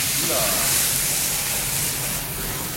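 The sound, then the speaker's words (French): Pasta is drained with a skimmer straight into very hot olive oil in a frying pan, giving a loud, steady sizzling hiss that fills the whole stretch with little change in level. “À peine le temps d'égoutter avec une écumoire directement dans la poêle avec l'huile d'olive. C'est assez spectaculaire.”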